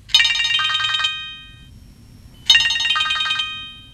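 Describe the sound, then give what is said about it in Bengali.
A telephone rings in two loud bursts of rapid, high electronic trilling, separated by a short silent pause, over a faint low background rumble. “না না না, phone ধরবে না।”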